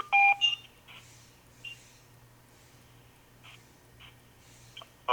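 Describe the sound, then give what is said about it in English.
Conference call join beeps. Short electronic tone bursts sound at the opening and again at the very end. Between them there is only a faint steady hum and a few soft incidental noises. “I heard a few more beeps. Who just joined us?”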